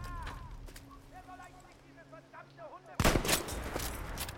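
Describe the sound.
Gunfire in the video game Battlefield V: a man talks for the first few seconds, then a sudden loud burst of several sharp shots cuts in and carries on to the end.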